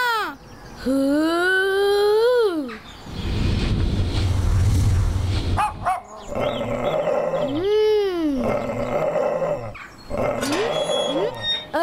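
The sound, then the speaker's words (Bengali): A dog gives long, drawn-out howls that rise and fall in pitch, with a rough, noisy growling stretch between them. A shorter howl follows later, and the sounds are loud and mostly free of talk. “না বাবলু ভাই, কুকুরকে বিরক্ত করবেন না, এটি আপনাকে তাড়া করবে।”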